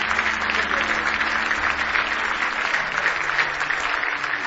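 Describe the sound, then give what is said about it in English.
Congregation applause fills a church service, dense hand clapping that stays steady and loud from start to finish with no gaps or pauses. “Give the Lord another big hand clap of praise.”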